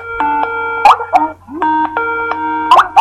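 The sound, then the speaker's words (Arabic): Skype incoming call ringtone plays as a bright, chiming electronic melody of clean tonal notes. The same short phrase repeats twice with a brief gap between, loud and without voices. “فهنشوف دلوقتي مع بعض كيفية الرد على سكايب. ادي اتصال جالنا دلوقتي.”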